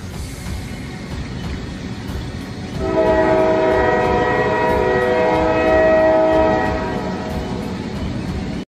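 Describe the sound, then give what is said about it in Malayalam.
A train approaching on a railway track gives a loud, steady rumble, then a long, sustained multi-tone horn that sounds for several seconds before the rumble continues alone. “അപ്പോൾ തന്നെ പെട്ടെന്നൊരു train വന്ന് അയാൾ ഇടിക്കുകയും ചെയ്യുന്നു”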